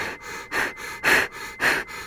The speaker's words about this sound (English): But then as I start to hyperventilate